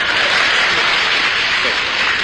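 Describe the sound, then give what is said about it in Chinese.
Audience applause at a crosstalk comedy performance: a dense, steady wash of many hands clapping that holds evenly loud for just over two seconds. “这个刚才您给他鼓了半天掌了，那么我这个掌声呢可没有他热烈啊。”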